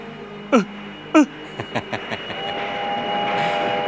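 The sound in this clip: Train departing: two sharp, falling blasts are followed by a run of shorter, quieter bursts that merge into a steady, building rumble of the moving train.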